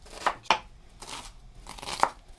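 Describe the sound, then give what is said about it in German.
Knife chopping onions into small pieces, heard as a few crisp, short cuts at uneven intervals, quiet and alone with no talk. “Die Zwiebeln werden flink in kleine Stücke geschnitten.”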